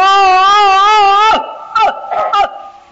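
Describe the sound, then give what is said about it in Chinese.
A stylized Peking opera cry of the old-man role: a sustained wailing voice with heavy, wavering vibrato holds for over a second, then breaks into a few short, sobbing bursts. “京戏的这个哭是用了夸张的手法。 哦， 跟我们生活中的那个哭啊有很大距离。 对， 老生一哭是这个样。”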